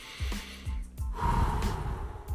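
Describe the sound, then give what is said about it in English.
A deep breath is drawn in as a long, soft rush of air that swells and then fades. It is quiet, with no speech around it. “So let's take a deep breath”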